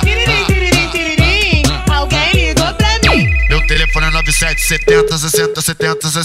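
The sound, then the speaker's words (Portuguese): An electronic phone ringtone plays within a song: a steady high tone, then short pulsing beeps, over a heavy, punchy beat that follows a stretch of sung vocals. “Tiririm, tiririm, tiririm, alguém ligou pra mim.”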